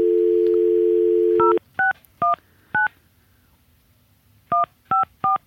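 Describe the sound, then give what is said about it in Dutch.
A telephone number being dialed on a keypad: a steady low dial tone gives way to seven crisp, loud two-tone keypad beeps, four in quick succession, a pause, then three more. “gaan we Alex bellen.”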